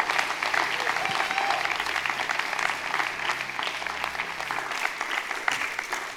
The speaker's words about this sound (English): Let's put our hands together and let's welcome Pastor John to the stage.